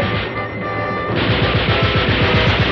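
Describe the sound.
Rapid gunfire from soldiers firing in a battle scene. After a brief steady tone, many loud, quick, evenly spaced shots ring out over a dense, noisy din.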